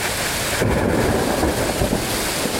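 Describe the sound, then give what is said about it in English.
Thunder and heavy rain from a summer thunderstorm in Reading, Pennsylvania, on the East Coast: a loud, dense downpour hisses steadily while a low rumble rolls beneath it throughout. “storms bring downpours and prompt tornado watches and warnings”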